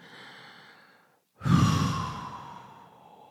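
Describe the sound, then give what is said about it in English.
A deep breath in is taken during a guided breathing exercise. A soft, faint breath is followed by a brief silence, then a long, loud, airy inhalation that swells quickly and slowly tapers away. “Deep breath in.”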